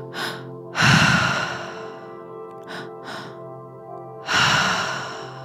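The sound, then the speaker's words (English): Forceful breathing during a triactive breathwork exercise, with a few audible breaths: two loud, drawn-out rushing exhales and shorter, quieter breaths between them, alone without speech. “Now we are shifting to the triactive breath.”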